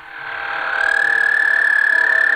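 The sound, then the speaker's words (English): An American toad gives its long, monotonous trill at night on a golf course in Lansing: one steady, unbroken buzzing trill at constant pitch that swells slightly early on, then holds loud and even throughout, with no other sounds. “here's the American toad call. I recorded this on a golf course that's now gone in Lansing in the middle of the night.”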